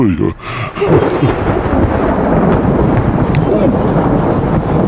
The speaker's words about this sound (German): Nee, doch. Jetzt fängt es an zu regnen.